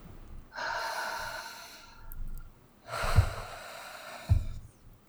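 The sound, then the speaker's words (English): Two long, faint breath sounds, each a soft airy rush of a deep breath, separated by a pause, with a brief low puff near the end of each. “Let's take a deep breath.”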